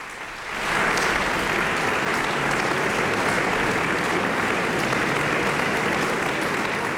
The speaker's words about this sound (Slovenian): Poslušalci v polni dvorani Union v Mariboru še navdušeno ploskajo